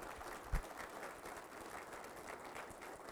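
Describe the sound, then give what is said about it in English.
An audience applauds military veterans during a church service. The clapping is a faint, steady patter that continues evenly throughout. “let's honor them this morning. Give them a round of applause.”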